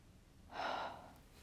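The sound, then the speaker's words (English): A single heavy, breathy exhale as someone catches their breath after exertion, rising and fading over about half a second. It is soft and airy and heard alone, with quiet around it. “I'm just going to catch my breaths.”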